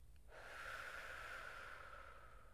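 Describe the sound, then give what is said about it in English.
A single long, deep inhale through the nose makes a faint, airy hiss that begins abruptly and holds steady for about two seconds. “Practice my deep breathing. So I'm doing my inhale through the nose,”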